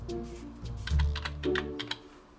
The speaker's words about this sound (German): Ich kann auch direkt hier oben eingeben, was ich dann suche. Zum Beispiel mit Suchergebnis, zum Beispiel, sagen wir mal jetzt, Reinigung.